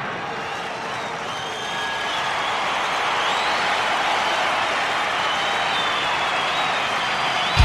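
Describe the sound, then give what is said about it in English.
A cheering crowd at a live concert roars steadily with broad, sustained noise that swells slightly and holds throughout, with no break in the crowd sound. “The greatest live shows and the cheering crowd sound.”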